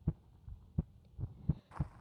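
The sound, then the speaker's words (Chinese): A heartbeat, heard as soft, low, muffled thumps in a steady, regular rhythm, with a faint hum underneath and no voices. “我可不是你妈妈，听着我的心跳，享受着温馨的时间吧。”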